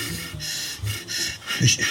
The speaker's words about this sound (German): Nicht reden, tief einatmen.